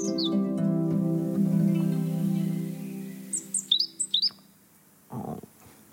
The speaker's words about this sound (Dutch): Roodborst. Mooi, hè?